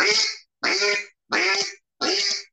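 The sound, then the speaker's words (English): A hunter blows a duck call with an open throat, sounding four evenly spaced, loud, nasal quacks. Each quack lasts about half a second and is separated by a brief silence. “there's not many times in duck calling that I don't blow open-throated.”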